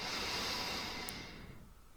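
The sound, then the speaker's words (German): A slow, deep breath during a guided relaxation exercise, heard as a soft, airy hiss that holds steady and then gradually fades over about two seconds. “Noch einmal ganz tief einatmen. Und langsam wieder ausatmen.”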